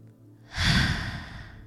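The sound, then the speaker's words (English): A single deep breath, a loud rushing airy sound that swells quickly and then slowly fades, heard alone with no talk. “Take a breath. Take another one.”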